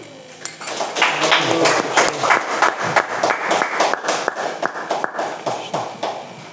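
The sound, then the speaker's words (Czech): Applause welcoming a visiting swami as a guest on a program: individual sharp hand claps stand out against a denser clatter, building up quickly and continuing at a bouncy, uneven pace. “Tak přivítejme ho potleskem.”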